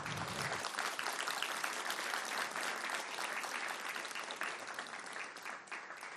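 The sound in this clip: Warm applause from an audience welcoming a speaker to the stage, a dense, even clapping that holds steady for several seconds on its own and thins slightly at the end.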